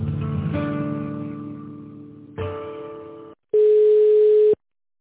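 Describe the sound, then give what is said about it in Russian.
Telephone line tones play while a call is transferred: layered harmonic tones fade and pause, then a single steady beep lasts about a second before the line falls silent. “Минутку, пожалуйста, переведу вас.”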